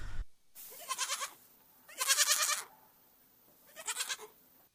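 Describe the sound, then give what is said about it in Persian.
A goat bleats in a drama scene where a tax collector orders an old woman's only goat to be taken away. Three separate, loud, wavering bleats are spaced out with quiet pauses between them. “من صدای بز شنیدم، آن بز را با خود ببرید.”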